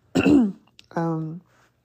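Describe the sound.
A person clears their throat in two fairly loud bursts, a rough gravelly rasp followed by a short voiced, hum-like grunt, with a brief quiet gap between them.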